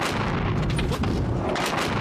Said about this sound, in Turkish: Mutabakat sonrası bölgede günler sonra yeniden patlama sesleri yükseldi.